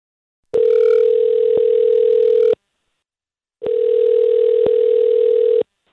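Outgoing telephone call ringing: two long, steady electronic ring tones, each about two seconds, separated by a short silence. The tones are loud and even with no voices.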